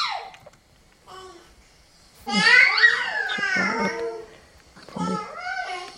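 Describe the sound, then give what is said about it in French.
A five-month-old baby alone makes exploratory vocal sounds, with squeals, coos and sweeping pitch glides in a few bursts separated by quiet pauses. The loudest and longest stretch comes in the middle. “Ça, c'est un bébé de 5 mois qui fait un peu tous ces trucs d'exploration. Il est tout seul.”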